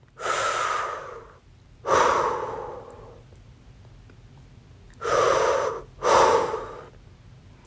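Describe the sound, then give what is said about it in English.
Two slow, deep breaths, each a long airy inhale followed by a long exhale, with a quiet pause between the pairs and no talking. “Take a moment and take a deep breath.”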